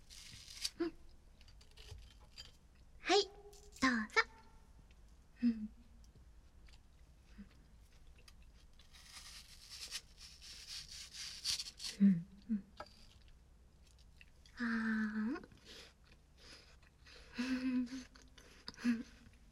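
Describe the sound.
Crisp bites and wet chewing of a sweet apple, many short crunchy bursts separated by quiet pauses, with a voice speaking briefly between bites.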